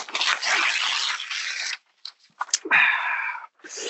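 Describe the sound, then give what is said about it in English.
An envelope is opened during a football discussion, giving a long burst of crisp rustling and tearing. Small crinkles follow, then another loud rip and further crackling. No voices are heard. “Let's go open up the envelope here, Duncan.”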